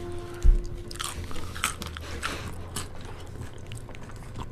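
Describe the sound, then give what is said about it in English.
Crunchy bites and chewing of nachos: a few crisp crunches, one louder bite near the start, over a low steady background. “I've been eating nachos this whole time.”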